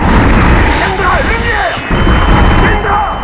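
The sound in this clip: Loud, dense gunfire erupts after an order to open fire, a continuous chaotic barrage with no clear gaps between shots, threaded with brief whining tones.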